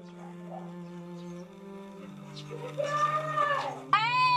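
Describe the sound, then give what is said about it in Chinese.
A child's crying rises into wavering, bleat-like wails toward the end over a low steady drone. “哎！我听见你哭了，你别哭。你不要哭。”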